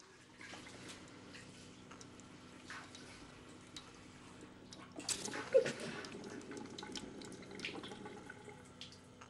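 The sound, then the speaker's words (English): Water runs from a tap as a woman washes her hands at a sink, a faint, steady flow that swells into a louder burst of splashing partway through before easing back. “Fragile Zoe turns off the tap”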